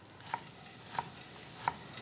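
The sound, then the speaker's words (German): Butter browning in a pan with whey and nuts gives a faint, steady sizzle, broken by three sharp, evenly spaced taps like a utensil knocking the pan. “So, die Butter, da karamellisieren wir jetzt schön die Molke.”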